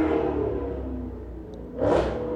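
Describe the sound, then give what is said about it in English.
Cars revving their engines down a street: a steady engine drone swells into one louder revving burst near the end, then eases back down. “do something about those fucking cars, because they love to fucking rev their engines down my block too.”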